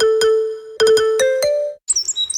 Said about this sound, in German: Der Zaunkönig. Diesen kleinen Vogel könnten Sie schon frühmorgens auf einem Zaun sitzen sehen.